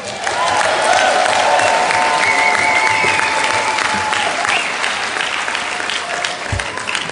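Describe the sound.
Audience applause greeting a speaker as she is introduced: dense, loud, continuous clapping that holds steady for several seconds before tapering slightly at the close.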